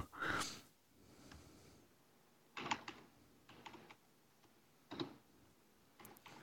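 A text message reply is typed as soft, faint taps in a few scattered clusters, with quiet pauses between them.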